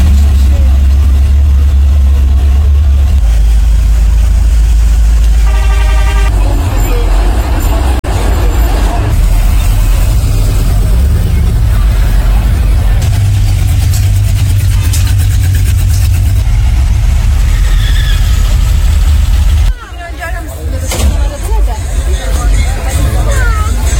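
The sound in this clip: A classic car's engine idles at a car show with a steady low rumble under loud crowd babble and chatter. The sound holds fairly even for about twenty seconds before a brief drop, then returns.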